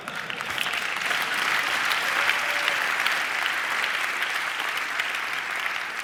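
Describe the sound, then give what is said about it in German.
Audience applause at a talk on autonomous driving and city space, a sustained, even roar of many hands clapping that holds steady for several seconds. “ihr klatscht jetzt, das ist aber nichts Gutes.”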